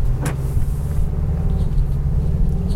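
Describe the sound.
Low, steady engine rumble of a turbocharged 2022 Mazda 3 hatchback pulling away in normal mode, an even drone with a brief click near the start.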